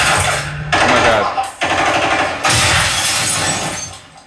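Rapid video game gunfire rattles out in several long, loud volleys, dense and harsh, broken by brief gaps between bursts.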